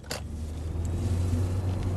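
A car driving through the streets of Boston gives a steady low engine and road rumble throughout, with a brief click near the start.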